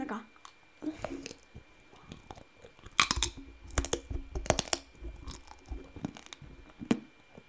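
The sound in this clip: Someone chews a leftover slice of pizza, with many soft, irregular bites and crunchy, wet mouth sounds, a few sharper crunches standing out among quieter chewing.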